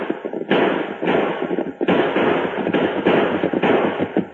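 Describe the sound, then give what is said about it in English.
Gunshots ring out in a Lone Ranger Western drama: several sharp, loud bangs with crackling tails come in quick, uneven succession and overlap one another. “Yeah, shoot. Don't let them get close.”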